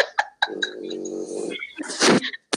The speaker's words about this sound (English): Ew, dog. He just put his beautiful, what kind of dog is that again? The French bulldog.